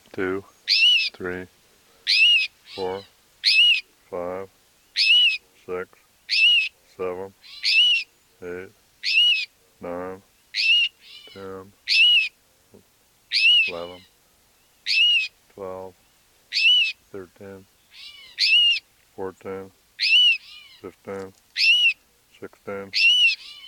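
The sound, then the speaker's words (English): Rufous-sided towhee female giving cries and alarm notes near a nest: many sharp, high, chirping calls repeated at a steady pace, with a low voice speaking between them. “Here are cries and alarm notes of two rufous-sided towhees, and probably near their nest. This is the female.”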